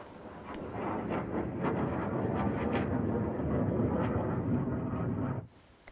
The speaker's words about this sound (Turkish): Ve alçak uçuş yapan savaş uçaklarıyla gökyüzüne bırakılan o ısı fişekleri de işte Mevasi'de böyle görüntülendi.